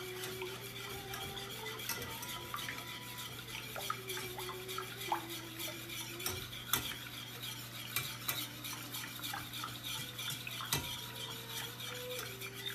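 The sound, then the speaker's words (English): Eggs are whisked together in a bowl in a home kitchen. Many quick, faint clinks and scrapes of the utensil against the bowl repeat in a steady stirring rhythm over a low, constant hum and light sizzle. “And make sure to whisk it all together so that it's nicely incorporated.”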